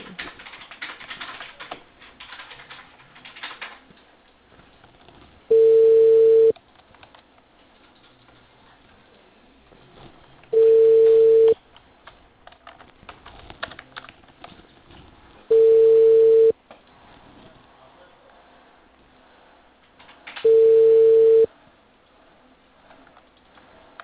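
Telephone line tone during a phone call: four evenly spaced, steady mid-pitched beeps, each lasting about a second, with faint line noise in the gaps between them.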